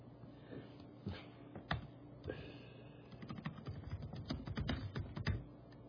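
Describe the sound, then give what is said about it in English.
Someone types on a computer keyboard, starting with a few scattered clicks and moving into a denser run of rapid, uneven keystrokes. The typing is faint and heard alone. “Now, I gotta just type this up here.”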